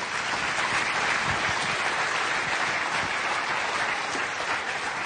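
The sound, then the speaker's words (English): An audience applauds to welcome a guest onto the stage, with a steady, even wash of clapping that holds at the same level throughout. “would you guys put your hands together”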